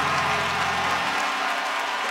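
Hands clapping in a dense, continuous burst of applause from many people, steady and fairly loud for the whole stretch, with a low hum underneath in the first half.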